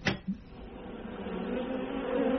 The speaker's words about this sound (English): I have something to show you. My observation hive.